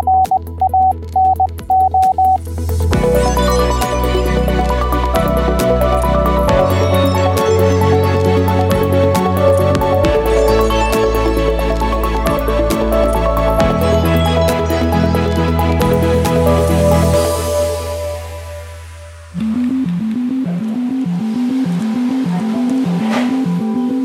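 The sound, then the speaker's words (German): Morse code tones spelling a word in an amateur radio setting: a few short beeps at one steady pitch open, then a long stretch of busy tonal music, ending in a quick run of rhythmic pulsed tones. “So klingt Lieblingsplatz als Morsecode.”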